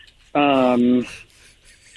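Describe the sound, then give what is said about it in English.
A little electronic beep like a reversing vehicle's warning: one loud, flat, buzzy tone held under a second that drops to a lower pitch midway, then faint noises and the onset of another beep at the very end. “Is someone going to back over you? We're hearing little beeps. We're hearing little beep noises, like someone's going in reverse.”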